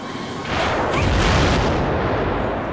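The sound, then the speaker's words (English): A loud explosion bursts in after a brief lead-in and swells into a dense, rumbling roar that holds steady to the end, with no voices over it. “It explodes.”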